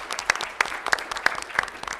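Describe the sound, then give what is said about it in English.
An audience applauds at a televised panel event: sharp, crisp claps stand out in a steady, even beat over lighter scattered clapping, with no voices. “You can applaud. You're allowed.”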